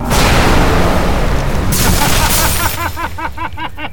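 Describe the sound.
Loud, dense weapon fire in an audio drama battle against Tevaz, the god of war: a heavy, booming barrage that later breaks into a rapid series of short, pulsing shots.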